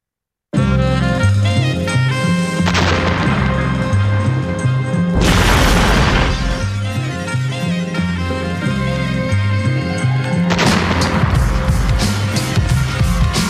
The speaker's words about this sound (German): Im selben Moment krachte es. Rechts fing ein Schrotthaufen Feuer. Molotow-Cocktails, diese Schweine.